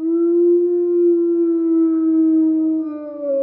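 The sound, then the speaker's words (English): A wolf howl, recorded as source material for a vehicle turn-signal sound, rings out as one loud, sustained, tonal note that holds nearly steady and bends slightly lower near the end. “we wanted to pull from something that we felt resonated really well across the forest, a wolf howl.”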